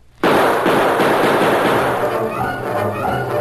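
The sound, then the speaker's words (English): Gunfire from outlaws in a night-time radio drama scene: a loud, dense crackle of overlapping shots that starts abruptly and holds steady for about three seconds. “As the torch flared through the darkness, the outlaws opened fire.”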